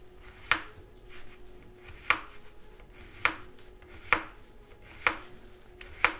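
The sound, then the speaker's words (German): A knife cuts quartered food into very thin slices on a cutting board. Six sharp, crisp knocks land at a steady pace about a second apart, with softer scraping sounds between them. “Dann kann ich mir das Ganze, also die ganzen vier Teile, so hinlegen aufs Brett und ganz schmale Scheiben runterschneiden.”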